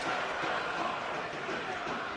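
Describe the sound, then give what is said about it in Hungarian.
Home crowd at a football match involving FTC chanting and cheering, a dense, continuous roar of many voices with no breaks. “Most a hazai közönség kezd rá.”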